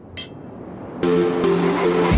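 Glasses clinking in a toast, one brief bright clink near the start, followed by a louder, steadier noise.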